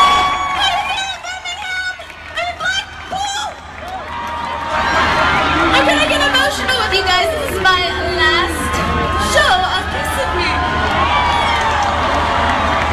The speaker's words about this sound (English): Now, you can hear the booing in the background because, of course, she was not in Blackpool, or excuse me, she was not in Birmingham. She was in Blackpool and told the city the wrong city.